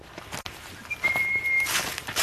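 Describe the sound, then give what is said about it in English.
A person whistles to call cats, holding one thin, steady, high-pitched note for about half a second amid soft background noise. “I have to keep whistling because I have to keep their attention.”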